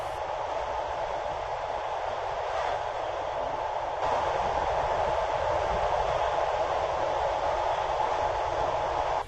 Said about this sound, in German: Die Nacht war kurz, aber schön und der Zug rollte weiter in Richtung Süden.